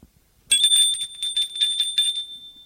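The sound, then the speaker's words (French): A doorbell rings at an old house: a bright, high, rattling ring that lasts under two seconds and then stops. “Il sonne.”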